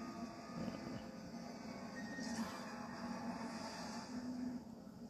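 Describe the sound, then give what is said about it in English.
An approaching train makes a steady, dense low rumble that holds throughout, with a brief faint high squeal near the middle. “Trains are coming.”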